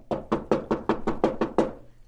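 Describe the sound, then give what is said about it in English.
Nine heavy, evenly spaced knocks pound on the door of a pawnbroker's shop among East Side tenements. They are loud and alone, in a quick, steady rhythm. “another sleeper is aroused by a pounding on the door this time.”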